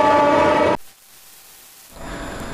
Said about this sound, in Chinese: 列车轰鸣驶过，一声鸣笛穿透夜空